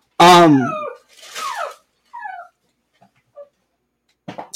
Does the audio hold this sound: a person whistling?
no

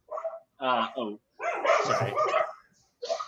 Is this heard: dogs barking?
yes

